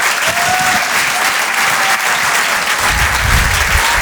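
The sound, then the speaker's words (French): Audience applause at a live comedy show as two comedians are welcomed on stage: a loud, dense wash of clapping that stays strong and even throughout. “Faites du bruit, s'il vous plaît, pour Gilles Alma et Ben.”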